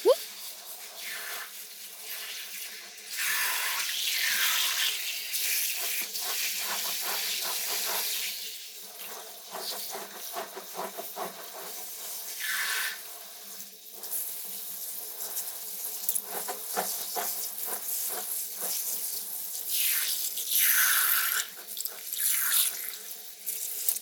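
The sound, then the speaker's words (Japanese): Warm shower water rinses hair as a hand works it through to the scalp before shampooing, a fairly quiet, steady hiss with shifting splashy surges throughout. “ただシャワーをかけるんじゃなく、ちゃんと手でしっかり奥までお湯を行き渡らせんといかんとよ。”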